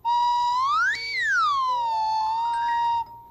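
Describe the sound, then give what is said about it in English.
A slide whistle plays one continuous tone lasting about three seconds: a steady note sweeps up, glides back down, dips briefly lower, then settles at its starting pitch and cuts off. “It's a slide whistle, ladies and gentlemen, and it's called that because this part slides in and out.”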